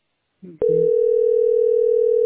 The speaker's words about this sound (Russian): Ну, гудки хорошие идут.